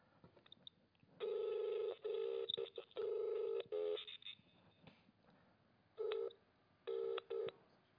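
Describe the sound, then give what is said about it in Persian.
Touch-tone dialing of a telephone number: a series of electronic beep bursts of varying length, clear and fairly loud, separated by short pauses, with a longer gap partway through. “خب شماره که الان زیرنویس کردن من بگیرم.”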